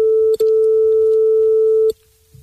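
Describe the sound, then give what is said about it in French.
A telephone ringback tone on an outgoing call: one long, steady, mid-pitched beep that holds for about one and a half seconds, then drops to quiet line hiss. “Logan qui appelle Jason, on appelle en direct. À l'instant même, pile poil.”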